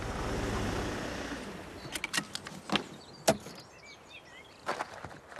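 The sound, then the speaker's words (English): A Mercedes car pulls up and its engine rumble fades, then a few sharp clicks and thumps follow as a door opens and the driver gets out. “Mercedes pulls up outside the house and he gets out.”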